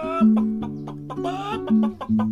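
A hen clucks in a quick, uneven run of many short clucks, fairly loud throughout, with a steady tone held beneath the calls.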